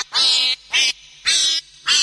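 Four bright, nasal duck quacks ring out alone in an even rhythm with short gaps between them. The last quack is cut off at the end.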